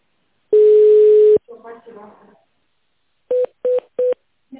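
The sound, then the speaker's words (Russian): Telephone keypad tones dialling an extension number: a long steady tone, a brief stretch of voice, then three short, evenly spaced beeps. “Или наберите добавочный номер в тональном режиме.”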